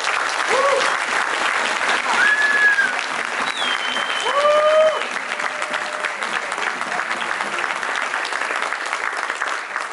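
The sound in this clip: An audience applauds to welcome former New Mexico governor Gary Johnson to the stage. The clapping is sustained and dense, with several sharp whistles rising above it.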